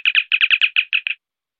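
A science-fiction handheld communicator chirp: a rapid run of short, bright electronic twitters in quick succession, clean and high-pitched, stopping abruptly after about a second.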